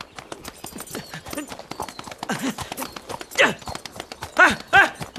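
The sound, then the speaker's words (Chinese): Horse hooves clip-clop as the horse is ridden: a quick, steady run of sharp, even knocks throughout, with bursts of a voice at times over them. “马儿啊，你说别人骑你怎么那么舒服，我骑你怎么就那么累呢？”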